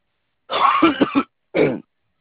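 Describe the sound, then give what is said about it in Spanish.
A person with a persistent cough gives a rasping cough of several quick pulses. After a short gap comes one shorter, harsh hack, and then the sound stops. “Ay, su madre. La pinche tos.”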